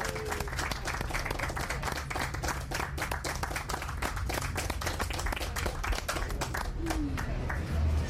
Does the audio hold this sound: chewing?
no